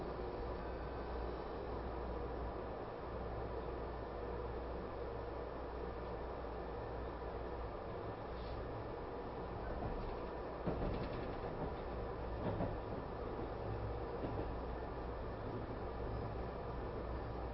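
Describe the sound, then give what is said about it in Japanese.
A train runs steadily toward Shinjuku terminal, giving a continuous, faint low rumble and hiss throughout with no talk. “Ladies and gentlemen, we will arrive at the 新宿 terminal in a few minutes.”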